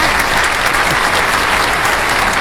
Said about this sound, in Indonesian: mending kita tepuk tangannya rame-rame walaupun tidak kelihatan ya